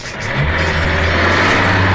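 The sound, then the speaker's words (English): A Chevy Nomad car's engine rumbles as a steady, loud, low drone that holds without clear breaks. “The surfer's dream. Hang 10 on a Dewey Weber and roll with a Chevy Nomad. You've got wheels.”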